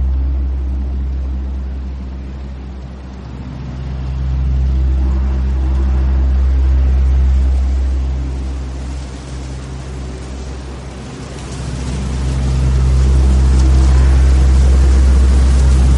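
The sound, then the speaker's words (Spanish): Several helicopters with large tanks slung beneath their fuselages fly toward a nuclear power plant after an explosion, their loud, deep rotor drone swelling and easing twice in long, continuous waves. “Varios helicópteros vuelan hacia la central. Llevan grandes depósitos colgados bajo el fuselaje.”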